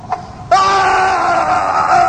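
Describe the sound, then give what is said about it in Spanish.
A scream rings out in a horror audio drama, a loud, sustained high-pitched cry that bursts in after a brief faint sound and holds steady, wavering slightly, to the end. “Se oyó un grito.”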